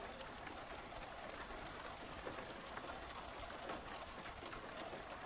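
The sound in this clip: Rain falling on the surface of water gives a steady, even hiss of countless small drops. It stays soft and continuous throughout, with no distinct individual splashes and no voices.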